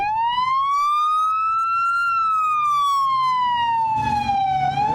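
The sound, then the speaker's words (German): Siren of a Houston police car driving past across a square: one long, loud wail that climbs in pitch, then slides slowly back down, with a rumble of road noise underneath. “Houston Police ist das. Fährt hier lang über einen Platz.”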